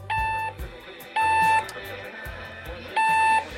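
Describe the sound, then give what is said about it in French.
An alarm clock beeping in three short bursts of high, steady electronic tones separated by brief pauses over a low background hum. “j'ai oublié de débrancher le réveil.”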